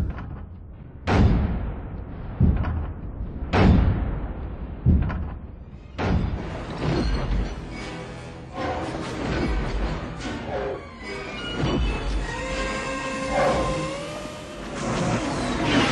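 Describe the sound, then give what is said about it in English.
Metal shear sound effect made for giant armored walker machines: a few heavy thuds and clanks, then sustained metallic scraping and grinding with wavering high tones toward the end. “This is a different metal shear, which was also used for the Imperial Walkers.”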